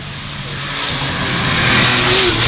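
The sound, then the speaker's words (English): A Porsche car arriving, its engine a steady, rumbling drone that grows gradually louder across the few seconds, with no voices over it. “We're just waiting for somebody else to arrive through. Another Porsche.”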